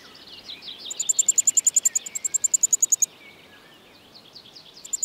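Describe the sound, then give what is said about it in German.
A wryneck, a woodpecker-like bird foraging for ants, gives a rapid run of many sharp, evenly spaced high notes, then a few more notes near the end, over a faint background hiss. “Der Wendehals. Er ist auf der Suche nach Ameisen, die es hier in Hülle und Fülle gibt.”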